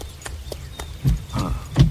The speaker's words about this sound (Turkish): Bu tarafa doğru bir araba geliyor.